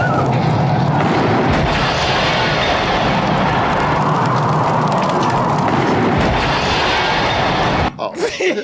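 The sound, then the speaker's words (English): A volcano eruption in a video game roars as a loud, dense, continuous rumble with booming bursts throughout, cutting off abruptly near the end. “as he predicted and tried to tell everybody, the volcano explodes, and it explodes in such a action-packed, thrilling way too.”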